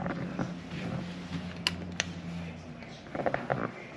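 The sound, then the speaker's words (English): Elevator running in a five-floor building: a low, steady mechanical hum with faint creaks and a few sharp clicks, continuous and fairly quiet throughout. “Somebody could be on the elevator, but it's 5 floors up, so we gotta take the elevator.”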